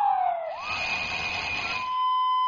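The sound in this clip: A harsh, rough alarm or siren tone, typical of car alarms, sirens and alarm clocks, starts with a falling glide, then sweeps into a dense, grating wail that settles into a steady high tone, loud and alone.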